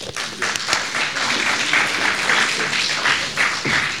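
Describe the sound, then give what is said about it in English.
Audience applause welcoming a lecturer before a talk on the composer Anton Rubinstein, a lively patter of many hands with a few sharper individual claps standing out, steady and fairly loud throughout. “Let's welcome once again Elwood McKee.”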